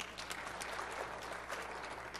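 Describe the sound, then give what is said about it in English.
Audience applause at a software product demonstration, a faint, steady, even patter of many hands clapping with no distinct peaks. “Now, how about an applause for that? Come on.”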